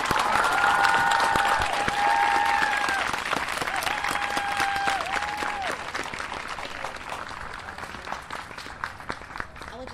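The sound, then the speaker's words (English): Sustained applause and cheering from an audience honouring a family at a justice gathering: dense, steady clapping that holds strong and eases slightly toward the end. “So we can make some noise for Micaiah Bryant and her family, please.”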